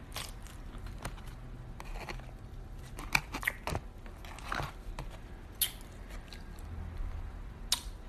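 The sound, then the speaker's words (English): Someone chews a thick piece of chicken. The sound is faint and irregular, with soft wet crunches, clicks and smacks, some sharper bites standing out, and no talking. “when you get to that thick part, you got to chew it more because I'm going to just choke”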